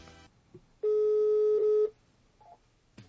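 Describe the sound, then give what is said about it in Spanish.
A telephone dials and rings as a call is placed: one loud, steady electronic tone holds for about a second, followed by a brief, fainter beep in otherwise quiet surroundings. “entonces no nos cuelgues, ya le estamos marcando.”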